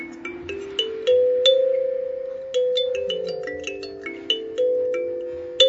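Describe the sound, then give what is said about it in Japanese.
Kalimba notes plucked one after another, tuned to a do-re-mi scale: many bright, bell-like tones, each with a sharp attack and a slow ringing decay. They form a gentle, unhurried melody on their own. “ハマったのが今日持ってこさせていただいたカリンバという楽器で、ちょっと音鳴らしてもいいですか。”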